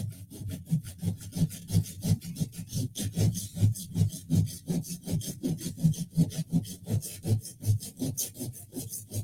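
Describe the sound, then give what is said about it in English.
A saw cutting through wood during construction work: many rapid, steady back-and-forth strokes with a rough, rasping texture, loud and continuous with no talk. “I got a saw going. Well, this might be the best cut yet.”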